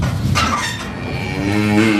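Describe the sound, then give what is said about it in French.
Cows moo inside a farm building in summer. The moos are loud, drawn out and low, with a strong tonal tail toward the end and no talk. “Donc on peut descendre au bâtiment où sont les vaches. Donc là, elles sont rentrées.”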